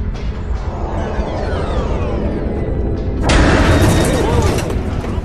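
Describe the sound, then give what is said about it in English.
A mine explosion set off by a proximity trigger strikes a ship, a broad rumbling roar that surges into a sudden, louder burst about two-thirds of the way through, then keeps rumbling. “No, sir. That was a mine. Someone left it behind and rigged a proximity trigger.”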